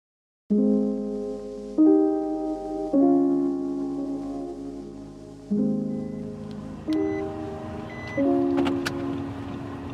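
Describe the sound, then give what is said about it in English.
Car engine droning while following a police outrider, a steady motor hum that shifts pitch in distinct steps as the gears change, with no talk over it. “We're on our way behind a police outrider to the next stop in the apology tour.”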